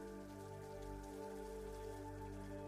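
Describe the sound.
Rain falling as a faint, continuous hiss, blended with a sustained low humming drone that stays steady throughout.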